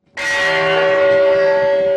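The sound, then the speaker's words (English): A peace bell struck once for the International Day of Peace: a loud, sudden onset followed by a long, steady ring of layered sustained tones that barely fade. “The UN Secretary General Ban Ki-moon rang the peace bell.”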